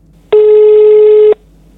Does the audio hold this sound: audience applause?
no